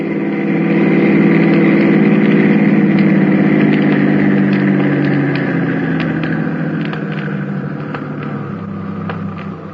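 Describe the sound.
A car engine runs steadily while the car is driven, a loud, constant low rumble with no talk, easing slightly in level toward the end.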